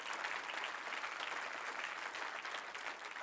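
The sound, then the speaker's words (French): Audience applause at a church gathering, a dense, steady patter of many hands clapping at an even, fairly quiet level for the whole stretch, with no voices above it. “on peut acclamer si vous êtes d'accord.”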